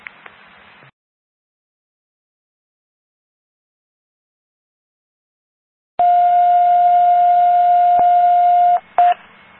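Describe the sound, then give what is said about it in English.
Fire department paging alert tones sound for a Montgomery County 911 test page: after a long silence, one loud, steady tone holds for nearly three seconds, then a brief second burst follows. “This is the Montgomery County 911 test page from Hillsborough for Fillmore Fire. Please acknowledge.”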